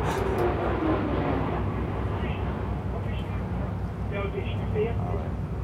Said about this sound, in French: Donc ça, c'est un avion qui passe.